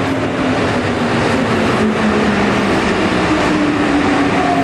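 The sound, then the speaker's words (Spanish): A metro train rushes past fast, a loud, unbroken rumbling roar with a low hum running underneath for several seconds, no voices. “Lo envió la Vicky un video que está esperando el metro. Hágale dedo para que pare. Va muy rápido.”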